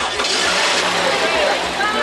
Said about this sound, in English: The eighth grader helping jumpstart our news car when the battery died.